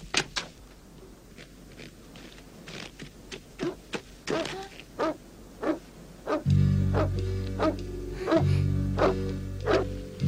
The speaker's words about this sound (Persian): صدای پارس خالخالیه. مطمئنی؟ آره خودشه